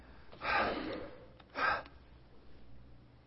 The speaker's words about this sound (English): I'm going to take a breath.